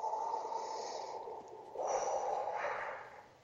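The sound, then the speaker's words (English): A person inhales deeply through the nose while drawing in the aroma and smoke of a ceremony: a long, soft, airy rush, faint and unbroken by speech, with a second breath phase following. “I'm going to take in a breath and I'm going to include the aroma with the smoke.”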